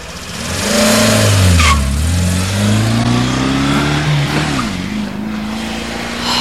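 A car engine roars as the car drives away fast. The sound is loud and continuous, and its pitch climbs, dips and climbs again. No voices are heard.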